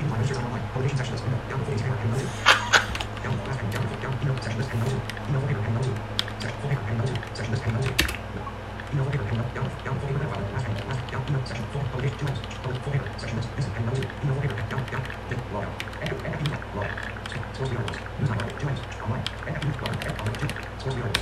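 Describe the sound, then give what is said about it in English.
Typing on a computer keyboard while naming a new folder: many quick, light key clicks in a steady, busy run that continues through the whole passage. “We'll type in, we'll create a folder, call it newspapers. Bam. And we'll hit enter.”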